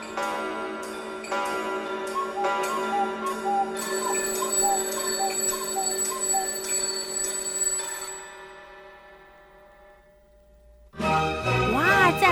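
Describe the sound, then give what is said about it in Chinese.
Bright bell-like chimes imitate a clock's ding-dong within a piece of music, repeated strokes ringing over sustained tones before fading away, then a louder new passage bursts in. “写实音乐的表现，这是时钟当当当的声音，对不对？”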